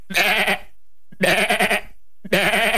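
A person imitates a goat with three loud, nasal bleats in a row. Each lasts about half a second and is separated by short silences, and the last one is cut off at the end.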